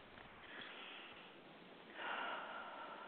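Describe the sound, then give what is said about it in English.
A deep breath, with a soft, rushing inhale followed by a louder, steadier exhale, breathy and alone. “Okay, take a deep breath, please.”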